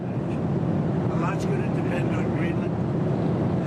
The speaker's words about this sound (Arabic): معذرة، الصوت مشوش جدا في الطائرة.